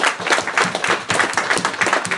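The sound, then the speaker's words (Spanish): Audience applause for a guest colorist at a comics talk: loud clapping that comes in distinct, closely spaced bursts, giving a pulsing texture. “¡Un fuerte aplauso para Fernanda!”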